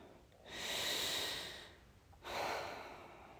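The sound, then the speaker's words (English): A long, deep breath taken slowly during a guided relaxation exercise: two soft, airy, drawn-out phases separated by a brief pause, quiet and alone with no talking. “Let's take another long, deep breath.”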